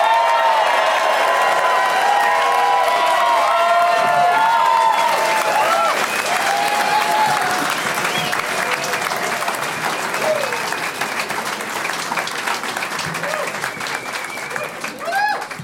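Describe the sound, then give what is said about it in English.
A comedy audience claps and cheers as comedians take the stage, a loud, sustained wave of applause with whoops. A host's voice runs over it at first, and the clapping carries on steadily to the end. “Please give it up for Andy Jewett, Jason Sklar, and Randy Sklar.”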